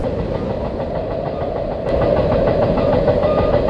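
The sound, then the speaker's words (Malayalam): A train approaching a railway platform makes a steady low rumbling roar with a faint rhythmic clatter, growing noticeably louder about halfway through. “കേട്ടില്ലേ, വണ്ടി വരാറായി.”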